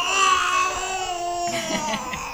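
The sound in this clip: A baby cries in a sustained, high-pitched wail with a steady, tonal quality that shifts in character about halfway through.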